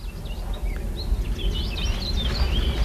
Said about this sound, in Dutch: Oh, hier horen we. Nog van alles. Ja. Ja, rietzanger.